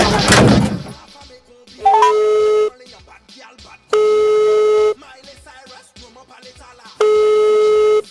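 Telephone ringing tones while a call is being placed: three steady, evenly pitched electronic tone bursts, each about a second long, separated by pauses with faint background sounds.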